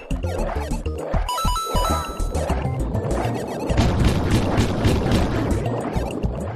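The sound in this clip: Giant eel swimming sound from the New Super Mario Bros DS video game: a dense, loud rushing and crashing wash with a watery texture, continuous throughout, with a few brief tonal notes near the start.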